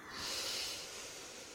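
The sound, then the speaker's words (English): A long, slow, deep breath is drawn in during a guided meditation, a soft airy hiss that swells gently and then eases off, faint and alone. “And now take a long, slow, deep breath in.”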